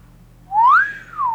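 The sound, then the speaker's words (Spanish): A man lets out a satisfied whistle: one clear, fairly loud whistled tone that glides upward, levels off, then slowly slides back down, heard alone. “Solo al inspeccionar las cenizas de la chimenea, dejó escapar un silbido de satisfacción.”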